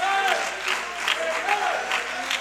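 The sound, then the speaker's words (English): An audience claps their hands during a church worship service, sharp rhythmic claps repeating at a steady beat beneath sustained voices. “Somebody ought to clap your hands today.”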